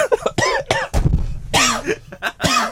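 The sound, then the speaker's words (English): Dry coughing comes in a few short, harsh bursts mixed in among voiced sounds, with no clear words spoken. “Oh, the dry cough's back.”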